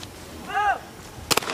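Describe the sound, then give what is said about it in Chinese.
A pistol shot at a shooting competition gives a brief, sharp crack, heard as a quick double snap that stands out from a low, steady background hiss. “中队的两个选手齐莹和孙玉农，各自的手枪都命中。”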